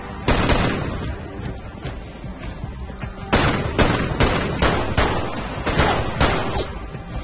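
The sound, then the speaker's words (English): Gunfire in a film scene as a suspect shoots at police officers taking cover near a convertible and a parking garage: one loud shot, a pause, then a rapid volley of many sharp, heavy cracks. “Gabriel backs away, he shoots at the officers.”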